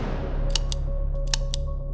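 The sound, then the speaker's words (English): Dry metallic clicks of a Walther P-38 9mm pistol trigger squeezed on an uncocked gun, a few short sharp snaps over a steady low hum. “Oscar had never fired a gun before and forgot to cock it. The distinctive click of a trigger alerted the seasoned officer to Oscar's deadly intent.”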